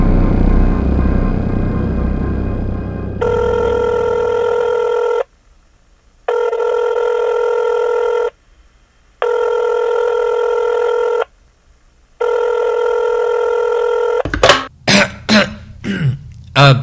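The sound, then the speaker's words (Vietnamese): A telephone rings four times in an even pattern, each bright, steady electronic ring lasting about two seconds with a short silence between, loud and alone, followed by a brief vocal sound at the end. “Cô gái làm thuê bị thức dậy nghe điện, nghĩ ngợi một lát rồi nói:”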